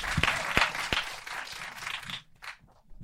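Applause from a small audience, with a few sharp claps standing out from steady clapping before it fades out near the end.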